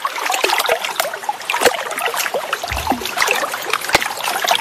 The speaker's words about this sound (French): De l'eau.